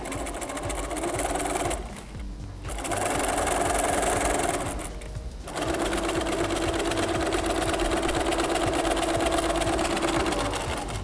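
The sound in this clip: A sewing machine stitches a narrow fabric tie strap with a loud, steady mechanical whir, halting briefly twice before running on again.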